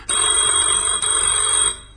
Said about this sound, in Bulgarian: Извинете, телефонът.